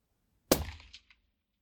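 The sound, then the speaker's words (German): A single rifle shot fired through a suppressor: one sharp, fairly faint crack that decays quickly into a short ringing tail, followed by a tiny click, with no voices. “Okay, dann probiere ich jetzt den. Jawohl. Bin bereit. Achtung, ich schieße.”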